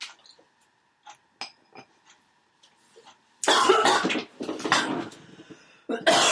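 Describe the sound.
Coughing after choking on something swallowed: a few faint throat sounds, then a burst of loud, harsh coughs, followed by one more cough after a short gap.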